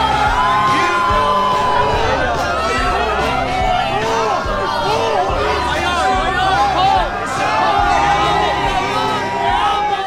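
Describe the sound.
A crowd at a small live gig cheers and whoops over loud, lively chatter and overlapping shouts. The excited, energetic babble keeps going throughout.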